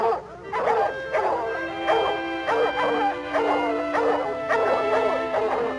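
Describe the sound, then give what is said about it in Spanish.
Hound dogs bark and yelp during a raccoon hunt, many rapid, evenly spaced bursts continuing throughout over a steady sustained tone. “Sujeten bien esos perros.”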